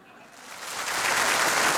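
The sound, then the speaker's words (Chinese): Applause at a Chinese crosstalk comedy show begins quiet and swells within a second into a loud, dense, sustained roar of clapping. “行了行了，别鼓掌了”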